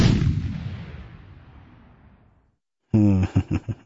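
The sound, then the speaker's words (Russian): A single gunshot fired into the air from a gunpowder firearm: a loud, heavy boom whose low rumble fades away over about two seconds, then a voice briefly speaks. “я, предупредив императора, чтобы он не испугался, выстрелил в воздух”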